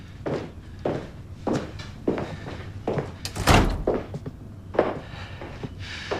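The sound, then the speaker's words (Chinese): A door is shut with a solid thud midway through, surrounded by a series of dull footsteps before and after. “跟我走。把门关上。”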